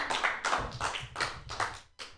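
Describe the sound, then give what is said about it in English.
Applause for a comedian at an open-mic comedy night, heard as a run of rhythmic, evenly spaced clapping bursts with no talking over it. “Put your hands together for Jared Senna. Yay! Keep it going, everybody. Give it up for Pam. Come on.”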